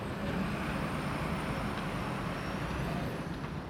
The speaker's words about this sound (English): This is the sound of global trade. One lorry at a time.